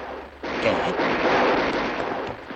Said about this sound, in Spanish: siguen disparando en todas direcciones contra sus enemigos.